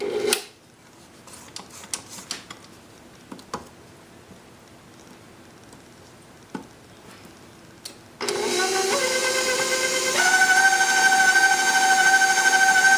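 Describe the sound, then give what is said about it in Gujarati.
Electric mixer running on high while mixing cake batter: a few faint clicks at first, then the motor starts with a loud, steady whirring drone that runs to the end, its tone changing partway through. “હવે જરા હું high રાખીશ કે આમ fine mix થઈ જાય.”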